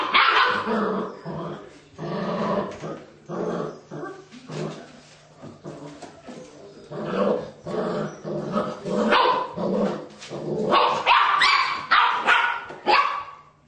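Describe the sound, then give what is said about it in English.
A puppy growls and barks at another puppy, with many sharp, yappy barks and rumbling growls in uneven bursts. The bursts come thicker and louder toward the end. “This puppy does not like the green collar puppy.”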